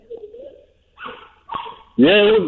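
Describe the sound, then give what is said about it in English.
A female dog barks as people come in. A few short excited yips build to a louder, drawn-out whining bark. “I'm really, really sorry about the dog. It's okay. She just goes insane when she sees people come in.”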